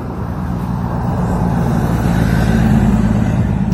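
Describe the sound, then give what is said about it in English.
A fire truck driving past, its heavy engine producing a loud, steady low rumble that holds throughout with a slight swell toward the end. “There's a fire truck. With no lights on this time.”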